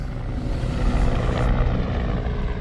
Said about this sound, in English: This is the sound of a helicopter landing to pick up some homebound soldiers.